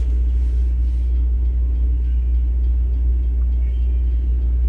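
A freight train passes with a deep, loud, steady rumble that stays continuous and unchanging throughout, with no voices over it.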